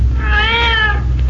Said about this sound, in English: That's one of the cats, all right.